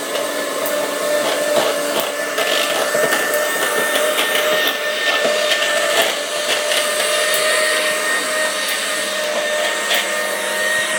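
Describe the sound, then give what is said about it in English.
A steady electric whir of cake batter being mixed with carrots, an unbroken droning motor sound that runs throughout with no voices. “Ready? Yeah, you're going to mix it now.”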